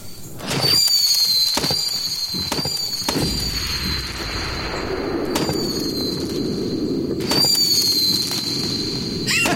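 Missile fireworks launch and fire: many sharp bangs and pops crackle continuously over a sustained high, steady whistle, loud throughout with no voices.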